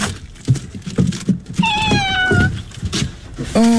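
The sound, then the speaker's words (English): A kitten meows twice: a drawn-out, high mew that slides down in pitch, then a shorter second mew right at the end, over quiet background bustle. “Well, he's exactly the same as another little kitten I've seen.”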